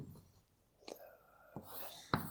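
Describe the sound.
Faint scratching and tapping of a diagram being written by hand, a few soft, brief strokes spaced apart over a low, quiet background.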